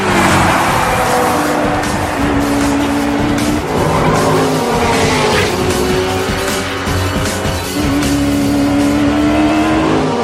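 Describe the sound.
Race car accelerating hard with tires squealing and skidding as a race sets off through narrow town roads toward a circuit finish; the loud, continuous engine roar holds steady throughout, with squeal layered over it.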